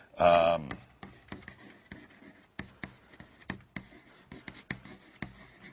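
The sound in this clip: A marker writing notes up on a board gives short scratchy strokes and sharp taps in an irregular rhythm, with a brief voice at the start.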